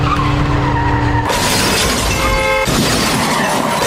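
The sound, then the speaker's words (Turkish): A car that lost control skids and crashes into a tram stop on a city boulevard, a loud, harsh, continuous roar that changes abruptly into broad crashing, shattering noise partway through, with no talking. “Sürücüsünün direksiyon hakimiyetini kaybettiği otomobil Sivas Bulvarı üzerindeki tramvay durağına çarptı.”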